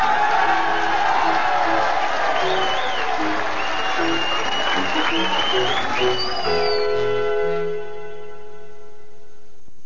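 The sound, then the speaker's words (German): Applause and crowd noise for a winner in an arena: dense clapping and cheering blend with ringing bell-like tones and voices, then fade toward the end. “Applaus für den reizenden Gewinner.”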